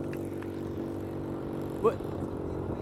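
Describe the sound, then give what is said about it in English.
A passing motorcycle's engine, a steady low rumbling drone that stays at an even loudness, with one brief louder blip near the end. “Wait, say it one more time that I couldn't hear because of the bike.”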